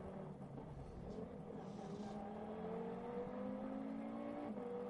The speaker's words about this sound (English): it is Miklas Born behind the wheel at the moment.